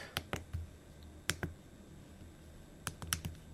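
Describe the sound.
Faint typing on a computer keyboard: sparse, crisp keystroke clicks come in small clusters of two or three, separated by short pauses.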